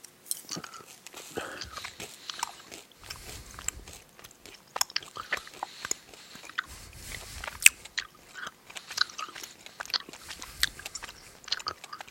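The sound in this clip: Someone bites and chews a mix of sweet watermelon and sweet strawberry flavoured food. Many soft, crisp crunches and bites come in an uneven rhythm, with a few duller low thumps between them and quiet gaps.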